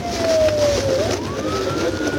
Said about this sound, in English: It was another high-speed chase, sirens blaring.